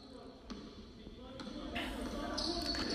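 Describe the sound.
A basketball dribbled on a court during a game, with several sharp bounces under steady crowd noise and voices.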